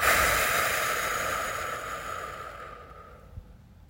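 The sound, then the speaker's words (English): A long, deep exhale from a guided breathing exercise, a breathy airy hiss that starts strong and gradually fades over about three seconds, with no talking. “We're going to breathe in 2, 1, 2. And breathe it out.”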